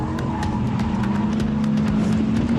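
An Audi with four-wheel drive and its stability control switched off slides through a long curve. A steady, droning engine hum runs throughout, with a light rhythmic ticking above it.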